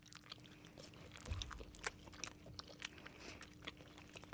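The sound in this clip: Faint, dry crunching as people bite into bread rolls made with insects, with one firmer bite standing out among a few soft chewing sounds.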